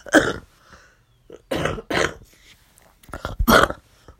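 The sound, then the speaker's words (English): A coughing fit: several harsh, raspy coughs come in uneven clusters separated by short pauses, loud and without speech. “I apologize for the coughing attack”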